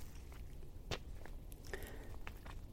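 Footsteps crunch softly on the ground of a forest. A few quiet, irregular steps sound over a faint hiss.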